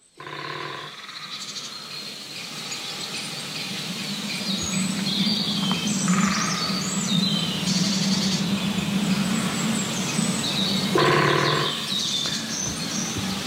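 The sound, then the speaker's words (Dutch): A great spotted woodpecker drumming on a resonant tree trunk in the Pijnenburg woods near Soest: a few short, rapid rolls stand out over steady forest ambience with birdsong. “Een groffelende grote bonte specht in het, in het bos Pijnenburg te Soest. De boomstam is een klankkast.”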